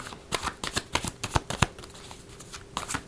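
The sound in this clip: Tarot cards are shuffled by hand during a reading, giving quick bursts of papery riffling and soft flicks in an irregular rhythm of many short strokes.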